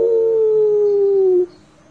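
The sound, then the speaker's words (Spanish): A single loud wolf howl from wolves beneath a window at night: one sustained tone that sags gently lower for about a second and a half, then cuts off sharply. “los lobos salieron del bosque, se acomodaron bajo la ventana de Rosa Luna y comenzaron a aullar. ¡Au! ¡Au!”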